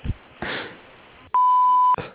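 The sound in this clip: An answering machine beep sounds after a voicemail greeting: one clean, steady, mid-pitched tone lasting about half a second, loud and alone.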